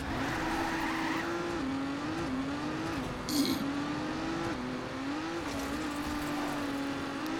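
Race car engine in the video game Trackmania, a steady droning hum with slight pitch wobbles, broken midway by a brief crunching impact as the car hits a post, then the engine carries on.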